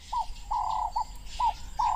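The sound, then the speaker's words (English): Wading birds call at a marsh at sunset: five clear, mid-pitched calls, some clipped and one drawn out, come at irregular intervals over a low, steady background hum. “At sunset, as the temperature falls, the wading birds join the scene.”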